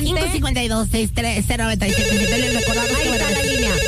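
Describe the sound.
Telephone ringing with an incoming call: a steady, loud electronic tone with layered harmonics. It starts after a short stretch of voice in the opening two seconds and holds unbroken to the end.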